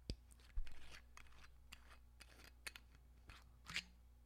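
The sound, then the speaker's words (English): A lid coming off a container, heard as a few crisp clicks and crinkly, crackling bursts. The sounds are fairly quiet and irregular, with one sharp snap near the start and a brighter crackle near the end. “You just totally ASMR'd that lid coming off.”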